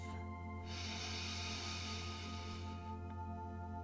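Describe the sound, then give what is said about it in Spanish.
A single slow breath drawn in through the nose during a guided breathing exercise: a soft, airy hiss that swells in and lasts a couple of seconds over a steady low hum, faint and alone. “Inhala por la nariz.”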